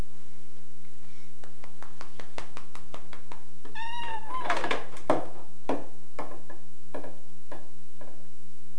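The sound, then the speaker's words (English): A pet cat gives a single drawn-out meow that rises and falls, heard in the middle of a run of regular, evenly spaced clicks that keep ticking before and after it. “Meow, said the kitty. He's such a patient kitty.”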